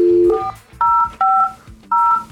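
A telephone being dialed: a low tone, then four bright dual-tone key beeps, each lasting a fraction of a second, separated by short gaps.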